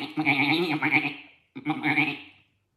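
A lamb kept in the back of a van with hay and a bucket bleats twice, each call loud, drawn-out and wavering. The second call is a little shorter and comes after a brief pause, with no other sound.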